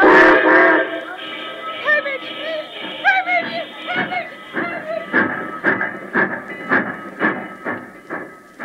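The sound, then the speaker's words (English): A steam locomotive whistle sounds with a sustained, tonal hoot, followed by a series of rhythmic, pulsing train sounds at a moderate level. “That's her whistle again.”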